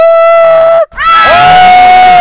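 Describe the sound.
A loud crowd shouts a battle cry, evoking the shout at the walls of Jericho: a sustained, steady-pitched massed yell, briefly cut off by a short gap, then resuming just as strong and held to the end.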